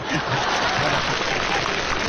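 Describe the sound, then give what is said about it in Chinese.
Steady, dense applause from the audience at a live stage performance, a continuous even wash of clapping throughout with no clear break. “我瞧谁敢鼓掌， 您甭含糊，我盯着呢。 您别鼓掌啊！”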